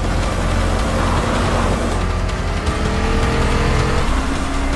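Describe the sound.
Car engine revving as the car drifts around a corner, a loud continuous roar whose engine tone climbs in pitch through the second half.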